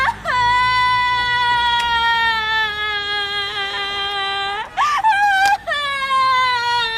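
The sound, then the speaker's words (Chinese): A woman cries in a long, high, sustained wail. Her voice breaks briefly before the loud wailing starts again. “行了行了行了，别哭了别哭了，我的妹妹哟。要咱进屋哭去吧。”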